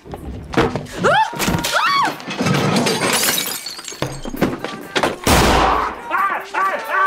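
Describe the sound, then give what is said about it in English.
A gunshot from a handgun bursts out as one loud, sharp, heavy bang amid tense exchanges, with agitated voices and thumps before it and more voices after. “Okay, so this is definitely a gun.”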